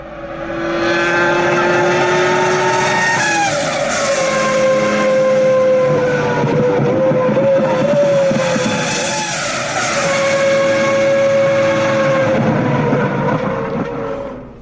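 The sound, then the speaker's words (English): A car engine downshifts through its gears: a loud, continuous mechanical roar whose tone steps down in pitch, with no voices. “I love counting the downshifts.”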